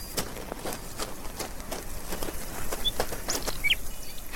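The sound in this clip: A magpie flies off after burying a peanut under a tree, its wings making many quick, soft flutters. Two brief bird chirps sound near the end.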